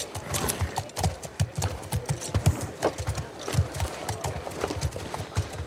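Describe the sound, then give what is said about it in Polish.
Horse hooves clip-clop in the video game The Last of Us Part II, a steady run of many hoofbeats with an uneven, walking rhythm and loud, sharp knocks. “O, zobaczcie, kogo przywieźli. Mamy koniki.”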